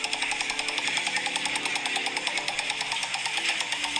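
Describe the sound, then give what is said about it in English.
Rapid, steady ticking of a spinning game show wheel, its clicks coming at an even pace, continuous and unbroken from start to finish. “Yeah, so we're spinning the wheel around. Oh god, I tell you, it's got good stamina, this wheel.”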